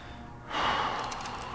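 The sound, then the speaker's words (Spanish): A deep inhalation during a guided meditation: quiet at first, then a single breathy, hissing intake of air begins about halfway through and holds steadily to the end, heard alone. “Inhala bien profundo.”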